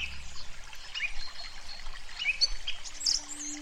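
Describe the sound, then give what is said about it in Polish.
Water seeps and trickles out from under a stone as a thin thread, a faint, steady babbling with bird chirps scattered above it. “przyszła do ciebie teraz, sącząc się spod tego kamienia. Na razie jest nitką.”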